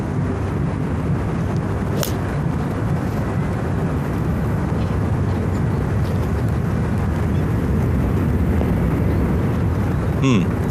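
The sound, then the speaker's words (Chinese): Passenger airliner flying overhead near a golf course, a broad, steady roar that fills the whole clip at an even loudness without fading. “比赛的球场距离旁边的机场也很近啊，头顶上这个客机往来也会带来巨大的噪音。”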